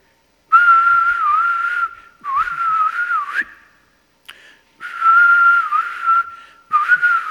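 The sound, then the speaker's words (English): Human whistling that imitates a mother's supper-time call: a few long, steady, clear whistled phrases with small wavers in pitch, plus one short chirp, each separated by brief pauses. “But here's what we would hear. My mother had a great whistle. We'd hear,”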